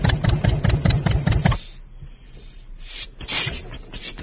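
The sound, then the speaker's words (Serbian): A tractor engine running, first a loud, rapid, even chugging for about a second and a half, then a quieter, rougher rumble that builds again toward the end. “Moj zec može da ide ovim traktorom.”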